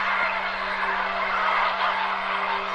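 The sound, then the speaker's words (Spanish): Hundreds of birds flying low at dusk beside a parked car near water: a dense, steady rush of flock noise with indistinct fowl-like calls blended in, over a constant low hum. “Cientos de pájaros vuelan a baja altura.”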